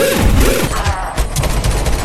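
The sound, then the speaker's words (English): Gunshots, a quick, loud burst of rapid shots at the start, followed by a few lower, heavy thumps. “Gunshots. Gunshots.”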